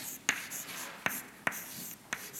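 Writing on a board during a lecture on a mass balance. Four short, sharp strokes sound at uneven intervals, separated by near silence.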